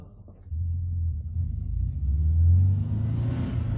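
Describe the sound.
A car starting and driving off, with a low engine rumble that swells as it revs and pulls away, then settles into a steady droning hum.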